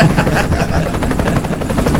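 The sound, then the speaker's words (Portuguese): A helicopter with a 755-horsepower engine flies overhead, giving a loud, continuous whirring roar with a steady rhythmic rotor chop that fills the whole stretch without a break. “A gente tá aqui com o helicóptero aqui, passando perto do Arcos Clube”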